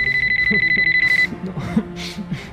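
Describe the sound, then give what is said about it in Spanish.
A mobile phone rings with a rapid, high-pitched, pulsing electronic tone that lasts just over a second and then cuts off, leaving soft, low rustling and muffled sounds. “empieza a recibir llamadas en su teléfono móvil.”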